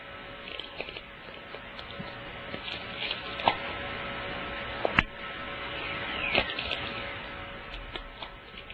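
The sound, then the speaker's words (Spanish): Crackling and popping recorded during an apparent ball lightning event: a steady hiss with a frying texture throughout, broken by a few louder, sharp pops near the middle. “Ese es el momento en que la bola de luz aparece, el rayo de bola. Ah, la fritura esa. Sí, esa especie, lo que va detrás de la fritura es una especie de saltito.”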